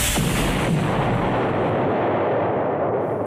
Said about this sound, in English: Activating high impact missile.